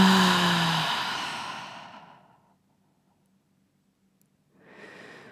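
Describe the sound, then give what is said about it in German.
Deep breathing in and out, a long, loud breathy exhale that slowly fades away, a silent pause, then the next breath starting quietly, with no talk over it. “Einmal mehr. Einatmen. Und aus.”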